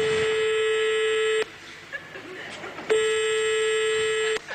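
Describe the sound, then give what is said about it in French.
Ringback tone of an outgoing telephone call being dialed, two long, steady, buzzing rings of about one and a half seconds each, separated by a quiet pause, then a third ring just beginning at the end. “C'est parti, on appelle Garou l'intermittent.”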